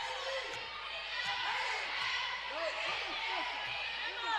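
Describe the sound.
A basketball is dribbled on a court during a women's game, a quiet, regular series of bounces under a man's steady play-by-play commentary.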